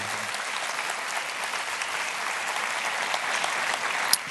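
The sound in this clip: Audience applause welcoming a speaker: dense, steady clapping that fills the whole stretch at an even level, with no voices rising above it.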